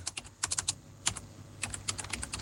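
Quick, light keystrokes on a computer keyboard as an ID card number is typed to look up voter eligibility for a Bangkok governor election: many irregular taps in short bursts, faint and clicky.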